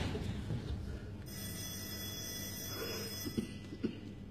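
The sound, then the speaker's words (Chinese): A telephone ringing in a staged scene: a bright, high, continuous ring of about two seconds over a low background rumble, followed by a few soft knocks. “耳朵聋了，接电话。”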